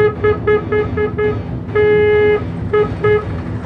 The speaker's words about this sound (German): Laut hupend fuhr ein klappriger, von einem Polizisten in Uniform gesteuerter Dreisitzer der Marke Wanderer in den Burghof ein.